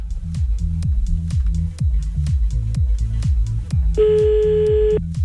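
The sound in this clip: A single steady telephone line tone, about one second long, sounds while a call is placed back after it dropped. It sits over a loud, rhythmic music bed with a repeating bass pattern.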